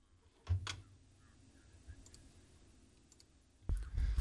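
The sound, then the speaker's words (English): Button clicks: a few sharp, separate clicks, followed by a louder, rougher burst of noise at the end. “Click the wrong button.”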